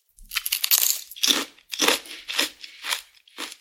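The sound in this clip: Crunching of large ridged chanterelle-flavoured potato chips: several crisp, brittle crunches arrive in an uneven rhythm, each a short, loud crackling burst, with no talk between them.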